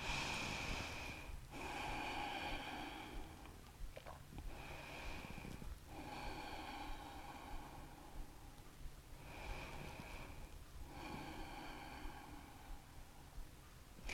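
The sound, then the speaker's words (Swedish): Slow, deep breaths taken while lying stretched out, resting on the forearms during an exercise session: a few faint, airy inhales and exhales in a steady rhythm. “Och tar 3 andetag.”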